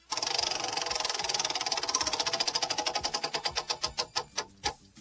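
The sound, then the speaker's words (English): A game show prize wheel spinning, giving off a rapid run of clicks that gradually slows, the ticks spreading farther apart until they stop. “Give you the wheel and go ahead and give it a spin.”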